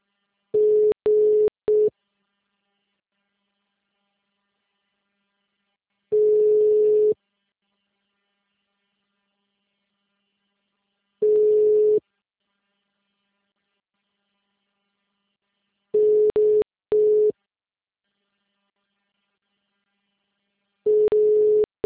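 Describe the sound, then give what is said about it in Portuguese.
Telephone tone heard while calling someone: a steady mid-pitched beep returning in five bursts at an even interval of about five seconds, some bursts broken into short pulses, with silence between and no voices. “eu tô ligando pra ele aqui de novo”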